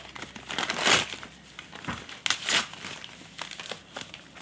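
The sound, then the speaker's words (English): Wrapping crinkles and crumples as a gift of glassware is unwrapped. A few louder bursts of rustling and crushing stand out among softer crackles, and the sound is faint overall. “So she's unwrapping it now. Mm-hmm. That's what's happening.”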